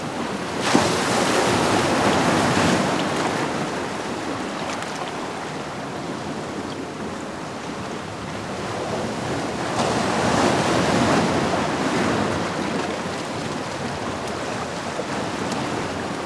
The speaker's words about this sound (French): Vous n'avez pas le temps d'aller voir la mer. Écoutez-la.